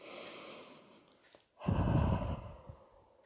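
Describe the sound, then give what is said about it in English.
A sudden deep breath drawn in a quiet room: a single soft, breathy rush of air lasting about a second, rising abruptly out of near silence and then fading. “At that, they both jumped at the sudden sound in the room. The sound of a deep breath.”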